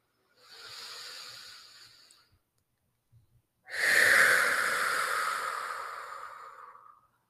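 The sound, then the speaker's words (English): A deep cleansing breath: a slow, soft inhale, a short pause, then a longer, louder, breathy exhale that gradually fades, with no talking. “I'm going to take another cleansing breath because now I've got myself all excited.”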